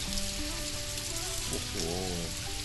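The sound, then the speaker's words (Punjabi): Rain falls as a steady, faint, even hiss that runs through the whole clip with no clear breaks or separate drops. “ਹੁਣ ਮੈਂ ਘਰ ਕਿਵੇਂ ਜਾਵਾਂਗਾ? ਇਹ ਬਾਰਿਸ਼ ਫੇਰ ਸ਼ੁਰੂ ਹੋ ਗਈ ਹੈ।”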